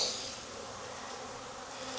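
Honeybees buzz in an open hive while frames are lifted and moved, forming a dense, continuous, fairly soft drone with no pauses and no voices.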